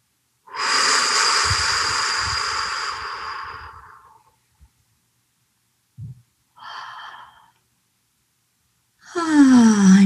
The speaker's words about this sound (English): Let's do it again. Let's breathe in. Hold it. Hold it.